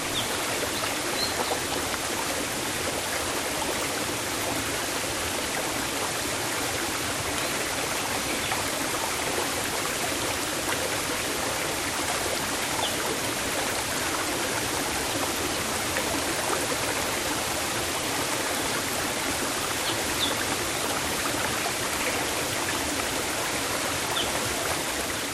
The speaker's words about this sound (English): follow a narrow path through the jungle, and you'll find a much smaller cascade feeding a stream beneath a wooden bridge.